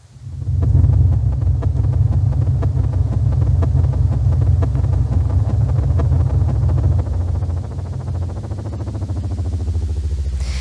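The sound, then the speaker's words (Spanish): Accelerated sonified signal of a star: a continuous, loud low rumbling drone with a dense, fast, evenly spaced pulsing texture, steady throughout and dipping slightly in level near the end. “¿Ese es el sonido de la estrella? ¿Ese que estábamos escuchando? Acelerado, claro.”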